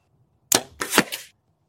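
An arrow fletched in a four-fletch configuration is shot into a target, giving a sharp snap followed by a couple of quick, dry thuds within about a second, with silence before and after.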